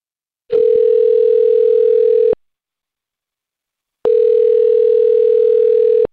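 A telephone line tone sounds while someone places a call: two long, steady electronic bursts of a few seconds each, separated by a silent pause, with no voices.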